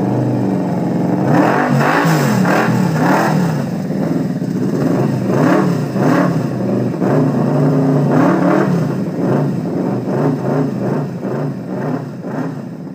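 A science-fiction hover bike's engine revs as a sound effect, a loud, buzzing motor that surges again and again in a pulsing rhythm. The revving runs steadily through the whole clip, with no voices.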